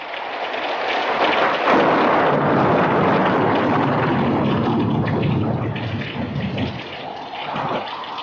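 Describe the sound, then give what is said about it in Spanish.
A stormy night rushes through a window flung wide open: loud, dense, continuous roaring of gusting wind and rain with deep rumbling, holding strong throughout and easing slightly near the end, with no voices. “La impetuosa furia de la ráfaga de viento que entró casi nos levantó en el aire. Era en verdad una noche tormentosa”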